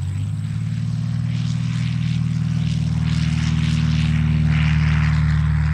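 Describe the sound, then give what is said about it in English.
Steady droning engine of a small blue and white private propeller airplane practicing landings and take-offs at a runway in Williamsport, Pennsylvania, a loud, even buzzing hum with a low pulsing tone throughout. “a plane can be spotted heading for the runway. It's a small blue and white private aircraft, the kind you might use to learn how to fly. That's what this pilot seems to be doing, practicing landing and taking off again.”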